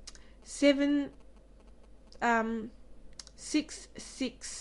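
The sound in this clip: Keys on a computer keyboard are pressed as a few crisp clicks near the end. Short bursts of a synthetic screen-reader voice come in between them and stand out against the quiet gaps.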